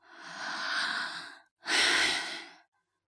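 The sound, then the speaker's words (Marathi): Deep, heavy breathing from a breathless girl running in the dark: a long, rasping breath of about a second and a half, then a short pause and a louder, shorter breath. No voices. “तिला दम लागला होता सिंह जवळ येत चालला होता तिने एक मोठा श्वास घेतला”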